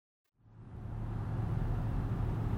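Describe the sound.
A car drives along a road with a steady, low, broad rumble that fades in after a moment of silence and then holds at an even level, with no talk.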